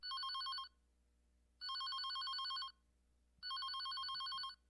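A telephone bell rings in three separate bursts of about a second each, with short silences between them. The ringing is bright, loud and metallic, and there are no voices.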